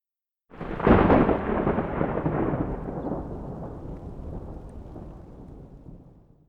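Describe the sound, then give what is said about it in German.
Rolling thunder breaks in suddenly with a loud, deep crack, then rumbles on for several seconds and gradually fades. “Donnergrollen.”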